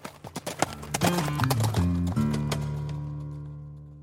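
Hooves clop as a horse is ridden off, starting with a quick run of sharp clops. A sustained, ringing tonal sound follows and slowly fades, with no talk over it.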